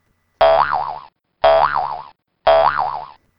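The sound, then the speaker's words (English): A cartoonish boing sound effect repeats three times, each an identical twangy spring tone with a wobbling pitch, spaced evenly, with no talk. “I have been accused of alienating women by using a boner sound effect.”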